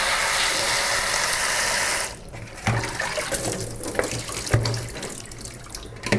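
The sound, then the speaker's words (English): Lettuce rinsed under a running kitchen tap: a steady rush of water for about two seconds, then quieter, uneven splashing with a few soft thuds. “I'm just rinsing lettuce now.”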